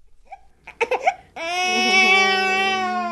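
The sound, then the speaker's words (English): An 8-week-old baby boy in San Francisco cries, fussy after his nap: a few short whimpers and breathy sobs lead into a loud, sustained, high-pitched wail. “You'll have to forgive one of San Francisco's newest residents. He's a little bit fussy right after his nap.”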